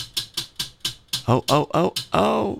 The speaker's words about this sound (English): Okay, here's the spin. It's like Wheel of Fortune or something. We didn't keep, get keep spinning, keep one spinning. More, one more. Don't give up. Clickety click, click, click, click, click.